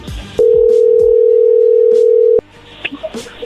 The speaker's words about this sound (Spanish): Muy bien, márcale de nuevo.